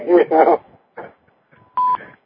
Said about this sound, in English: We have another caller calling in.